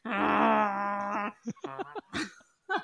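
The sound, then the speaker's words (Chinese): A voice performs Ashtanga yoga breathing as a long, droning voiced groan, followed by several shorter, choppy bursts of breath and voice with gaps between them. “那个是我在呼吸，好不好？阿斯坦加瑜伽就是要这样子呼吸，”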